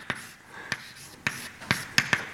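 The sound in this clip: Chalk or marker strokes on a board during a mathematics lecture, six short sharp taps at uneven intervals, with the last few coming closer together.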